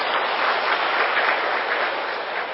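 Applause from the audience at a Buddhist lecture, a brief, steady burst of clapping lasting a couple of seconds and easing off slightly at the end.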